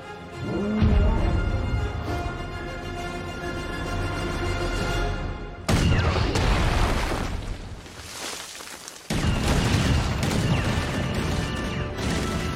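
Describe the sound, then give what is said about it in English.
Dense, continuous gunfire from a movie scene in which every gun is turned on one man, a loud unbroken barrage of cracks and crashes with a couple of abrupt cuts partway through. “I think the constant firing is just so immature like a video game.”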